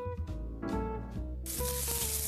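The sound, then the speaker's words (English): Sizzling of a seasoned 12-ounce T-bone steak with thyme, herbs, spices and peppercorns cooking; a loud, steady hiss starts suddenly about midway and continues to the end over faint tonal sounds. “And that's a very good sound when you're cooking a steak.”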